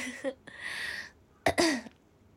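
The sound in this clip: Throat clearing from a woman who habitually clears her throat: a few short, rough guttural bursts, the last and loudest a double rasp, with a breathy hiss between and no talk.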